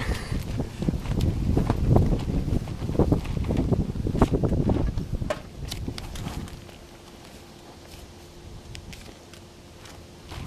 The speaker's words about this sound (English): I love that wind.